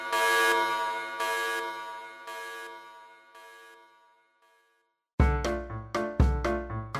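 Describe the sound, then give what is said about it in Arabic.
A laboratory alarm sounds as a series of loud, buzzing, horn-like blasts with a rich tone, repeating at a steady pace and growing fainter. After a brief silence, a louder series of sharp tonal hits follows. “ايه الصوت ده؟ ده صوت انذار المعمل بتاع اخوك.”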